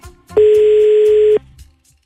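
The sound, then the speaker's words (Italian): An outgoing telephone call gives a single loud, steady mid-pitched tone lasting about a second, cutting in and off cleanly, with faint low noise before and after. “Vediamo, stiamo chiamando Federica che si sposa domani.”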